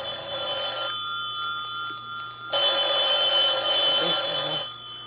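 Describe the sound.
Telephone ringing in a hallway, a steady electronic ring that continues throughout and swells noticeably louder for about two seconds partway through before easing back.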